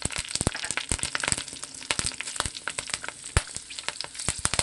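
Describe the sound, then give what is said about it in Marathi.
Half a teaspoon of mustard seeds and chilli sizzle in hot oil, a dense hiss broken by many sharp pops and crackles at an irregular rhythm. “तेल व्यवस्थित तापलेलं आहे। आता आपण छोटा अर्धा चमचा मोहरी टाकून घेऊ, त्यातच मिरची टाकायची आहे।”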